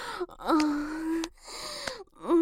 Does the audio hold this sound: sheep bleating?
no